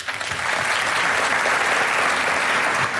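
Audience applauding a band on stage, a dense, steady wash of clapping that holds loud throughout.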